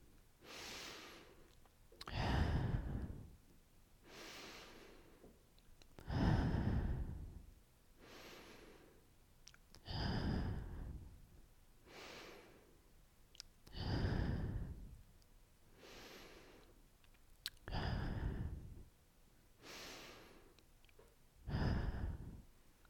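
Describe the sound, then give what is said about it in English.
Six slow, deep breaths, in through the nose and out through the mouth, follow a steady rhythm: quiet airy inhales alternate with louder, sighing exhales, with no talking. “take 6 deep breaths with me, in through your nose and out through your mouth.”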